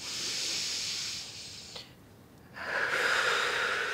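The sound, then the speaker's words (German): Two slow inhalations through the nose during a calming exercise at a medical appointment, each a soft, airy hiss lasting over a second, separated by a short quiet gap, the second somewhat louder. “Lassen Sie uns mal gemeinsam durch die Nase einatmen, ja? Und nochmal.”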